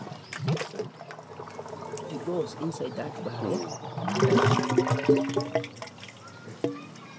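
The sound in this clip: Biogas slurry mixture draining from a pulled plug into a barrel: faint, continuous liquid running and trickling, with a few drips, heard under people talking.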